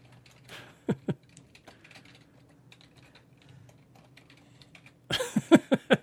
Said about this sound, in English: I'm going to write it out for you. Ready, Tony? Don't say anything. I'm just going to write it here for you.